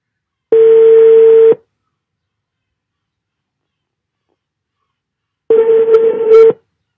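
A telephone ringing tone on a call line: two long, steady mid-pitched beeps about four seconds apart, with silence in between and no voices.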